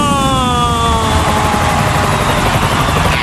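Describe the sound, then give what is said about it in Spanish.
A Ryanair airliner landing: a loud, steady engine roar with whining tones that glide slowly downward in pitch throughout, with no voices over it. “El vuelo de Ryanair. 5, 4, 3, 2, 1. ¡Aterriza!”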